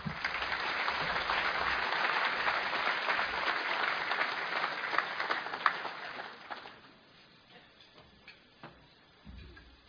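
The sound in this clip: Applause from an audience welcoming the chairman of the Cato Institute to speak. Dense, steady clapping lasts about six seconds, then thins out into a few scattered claps and near quiet.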